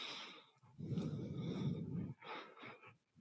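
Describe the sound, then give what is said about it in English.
Deep breathing during yoga: one long, steady, rushing breath, followed by a few shorter, airy breaths. “And cartwheel down, low push up. Breathe in, upward facing dog.”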